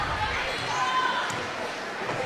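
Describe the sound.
A basketball dribbled up the court during a Lady Hornets women's game, with soft bounces mixed into steady crowd noise, a few sneaker squeaks and talk.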